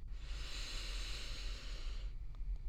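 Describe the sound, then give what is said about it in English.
One long, deep inhalation during a guided breathing exercise: a steady, airy hiss lasting about two seconds before stopping abruptly, with a low hum underneath throughout. “let's take one last deep breath together. Breathing in deeply”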